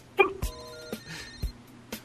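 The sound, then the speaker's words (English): Telephone ringing on an outgoing call: a brief electronic ring burst, then steady ringback tones, with a few soft clicks and no talk. “My prediction of this call is it's going to ring and go to voicemail, and that's the end.”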